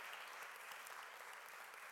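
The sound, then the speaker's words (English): Congregation applause for people involved in church initiatives, a continuous, faint patter of many hands clapping at an even level. “can we just give a big round of applause to those who are involved in these initiatives?”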